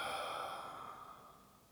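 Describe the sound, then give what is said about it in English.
A long, deep breath during a guided relaxation: a soft, airy exhale that slowly fades away, quiet and alone. “And a second sweet long deep breath in and all the way out.”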